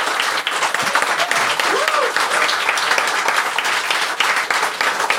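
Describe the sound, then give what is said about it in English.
An audience at a record club event applauds to welcome a guest speaker, with dense, steady clapping that stays loud and even throughout. “But if you could just put your hands together, please, and give a Glossop Record Club welcome for Mr. David Hepworth.”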